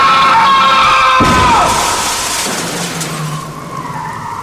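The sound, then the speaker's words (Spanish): A car speeding and skidding as it strikes a pedestrian crossing a street: a loud, high tire screech cut by a sudden heavy impact, then a fading rumble of noise. “sin fijarse que venía un auto a toda velocidad, el cual lo impactó matándolo al instante”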